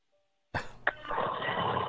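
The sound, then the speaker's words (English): A bong hit with smoke drawn in and breathed out: after a short silence, a sudden breathy rush begins, with a brief sharp burst early on, then a steady airy noise that continues to the end. “Yeah, now I can hear you. I can hear you exhaling now. You're definitely ripping one. So, all right. So, Dude, I heard the bong rip.”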